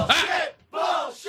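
A studio audience gives two loud bursts of disapproving shouting, separated by a brief pause.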